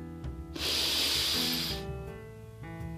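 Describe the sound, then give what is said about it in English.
A deep breath in during a seated yoga relaxation: one long, smooth breathy hiss swells in and holds for just over a second, then fades back to a soft, steady background. “So wherever you are now, you can be seated and be comfortable, and with a broad smile, breathe in,”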